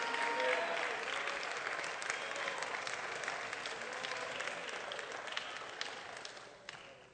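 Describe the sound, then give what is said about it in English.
A church audience claps in praise, a dense, steady wash of applause that carries on throughout and tapers off near the end. “Now, somebody stand on your feet and let's give Jesus a hand clap of praise.”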